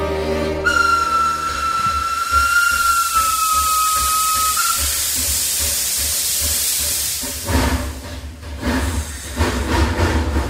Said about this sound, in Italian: Il treno va.